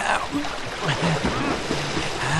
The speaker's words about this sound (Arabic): يا إلهي، ما أعظم هذا الموج.